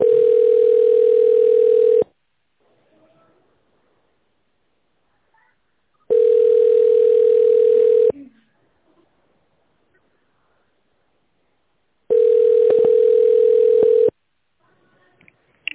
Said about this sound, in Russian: Соединяюсь с оператором.